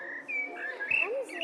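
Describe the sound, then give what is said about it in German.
A toy animal-sound memory game plays a Eurasian blackbird call. The short, faint run of fluting, whistled notes has slight pitch slides and sounds thin, like an electronic reproduction. “Amselchen. Genau, das ist eine Amsel”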